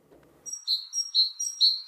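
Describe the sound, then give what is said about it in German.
A great tit sings a bright, high, repeated two-note phrase, about three clear cycles of alternating notes, preceded by a brief low rustle. “Eine Idee? Das ist eine Meise. Richtig, die Kohlmeise.”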